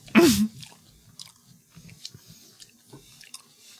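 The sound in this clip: Crunching of a raw apple being bitten: one loud, crisp crunch opens, followed by many softer, irregular chewing sounds that continue faintly throughout.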